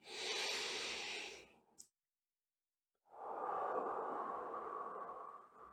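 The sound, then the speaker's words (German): A slow, deliberate breath in during a guided relaxation with eyes closed, then a pause of silence and a long, soft breath out, close and quiet with no talk. “Und mit dem Augen schließen atme mal ganz bewusst ein und aus.”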